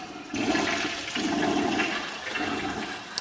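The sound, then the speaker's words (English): A toilet flushes with a loud, steady rush of swirling water that starts abruptly and carries on evenly for a few seconds. “What was that? Who did that? I've been at my desk the whole time. I don't have a bathroom. Which one of you has been on the toilet this whole time?”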